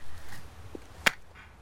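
A single sharp hand clap at the stern of a ship, brief and crisp against a quiet low background rumble.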